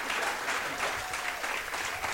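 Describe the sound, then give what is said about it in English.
Audience applause for Buffalo Bill and Old West Society performers at Buffalo Bill Days in Lanesboro, a steady, fairly faint wash of clapping with no break or build. “Let's have a nice round of applause for Buffalo Bill and his friends from the Old West Society.”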